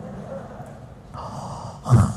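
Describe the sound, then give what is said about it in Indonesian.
A drawn-out, breathy yawn from someone who has just woken up feeling unwell. It builds over about a second and ends in a louder, sigh-like exhalation, with no talking. “Lah dia yang menguap”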